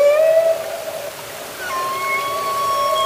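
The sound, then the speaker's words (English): A humpback whale sings underwater in Glacier Bay, Alaska, with long sustained tonal moans and thinner high whistles drawn out over a faint steady hiss. “That's a humpback whale singing in Glacier Bay, Alaska.”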